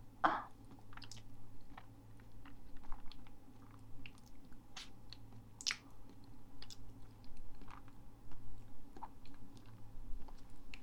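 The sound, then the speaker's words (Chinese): Someone is eating and chewing food, making quiet, steady mouth sounds with many soft crunches and wet clicks over a low, constant hum. No one speaks. “马上吃完了，吃完了这个我要看一下，我吃了多久，不然就吃第二个。”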